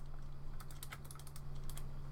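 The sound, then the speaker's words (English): Typing on a computer keyboard: quiet, quick keystroke clicks in a short burst, a brief pause, then a few more, over a steady low hum. No talk. “hold on, I'll just type it.”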